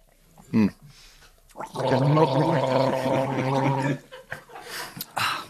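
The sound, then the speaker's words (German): People gargle a drink while tasting it. A sustained, bubbling gargle lasts about two seconds, with short vocal bursts before and after it. “Beim Gurgeln schmeckt es tatsächlich mehr. Ehrlich? Ja. Ja, komm dann. Aber dann bist du auch schneller blau. Ja, dann gurgeln wir alle, komm.”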